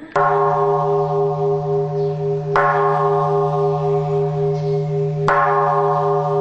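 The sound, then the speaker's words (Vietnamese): Three strikes of a ceremonial temple bell open a Vietnamese Buddhist homage to the Three Jewels. Each sharp strike blooms into a long, steady ringing tone rich in overtones that is still sounding when the next strike comes, roughly two and a half seconds apart. “Trước tiên chúng tôi xin mời các vị thành viên trong ban nghi lễ quan hệ cử ba hồi chuông.”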